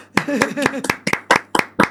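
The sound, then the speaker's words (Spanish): A single person claps live in a radio studio. Several sharp, evenly spaced hand claps ring out in a steady rhythm, and the first few claps sound under a voice. “yo no sé si la radio nos permite aplaudir, pero yo voy a aplaudir en directo.”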